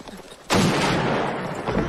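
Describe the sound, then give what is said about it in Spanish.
Gunshots ring out during a tense confrontation: a sudden, loud blast cuts in sharply after a quiet moment, followed by a sustained rough noisy tail and another weaker burst near the end. “¡No disparéis más!”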